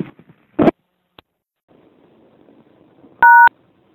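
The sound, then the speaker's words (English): An outdoor payphone makes a sharp click and a faint tick, then a low murmur, then a single clear touch-tone beep lasting about a quarter second. “Well, I obviously dialed the wrong number, but standing out here at a payphone trying to reach certain person,”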